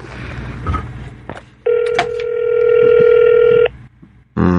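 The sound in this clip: A telephone ringing on an outgoing call: one steady, buzzy ringback tone holds for about two seconds, with quieter background noise before and after it.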